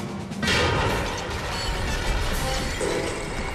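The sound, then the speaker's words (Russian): Chess pieces smashing in a magical chess game: one loud, broad crash bursts in early and then settles into a sustained, noisy rumble that continues to the end. “Игра в полном разгаре. Одна за другой рушатся фигуры.”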